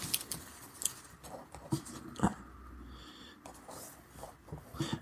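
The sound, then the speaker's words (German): Handwriting on paper as someone jots down a note: scratchy pen strokes and light taps come in short irregular bursts, fairly faint and with no talk over them. “ich äh, schreibe mir gerade was auf”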